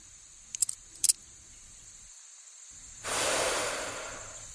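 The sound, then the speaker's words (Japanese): A cigarette lighter being flicked: two sharp, bright clicks close together, then after a short quiet gap a soft, steady breathy hiss. “吸ってないよ、タバコなんて。いや、でもライターの音が。”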